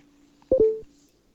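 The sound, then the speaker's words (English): Telephone dialing tones: a faint steady low tone, then a loud, short cluster of touch-tone beeps in quick succession that drops back to the quiet tone. “Were they just dialing?”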